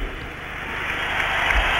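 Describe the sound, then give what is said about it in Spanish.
Applause as the crowd gives an ovation to the Spanish basketball team at the 1984 Olympic silver medal ceremony: a dense, steady crackling wash of clapping with no distinct single claps. “Y el público ovaciona al equipo español.”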